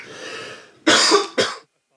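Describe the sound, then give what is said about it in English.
Two coughs in quick succession, the first longer and louder, the second shorter, following a softer breathy sound. “a coughing. Sorry.”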